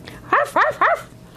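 A dog gives a quick run of high, yappy barks with short gaps between them, loud and clear with no other sound around them.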